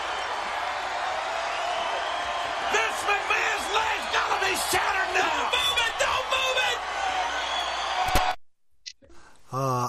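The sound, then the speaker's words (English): Wrestling crowd screaming in a loud, sustained roar under excited voices talking over it. The noise cuts off abruptly near the end, and a brief, separate voice follows. “They don't scream like that anymore in wrestling, do they?”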